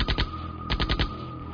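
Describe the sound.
Bursts of automatic rifle fire: two quick sharp shots, a brief pause, then four rapid shots in a tight rhythmic string, loud and hard-edged.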